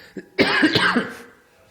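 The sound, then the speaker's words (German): A person coughs during an interview. A small, faint catch comes first, then one loud, rough, voiced cough trails off gradually. “Da ist schon wieder der Husten.”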